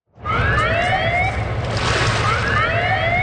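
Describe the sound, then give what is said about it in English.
A siren-like wail with repeated rising sweeps sounds at the St. Louis de Gonzague lift bridge, southwest of Montreal, as a ship passes under. It plays loud and continuous over a steady low rumble, with no talking. “That's the sound of a boat passing under the St. Louis de Gonzague Bridge.”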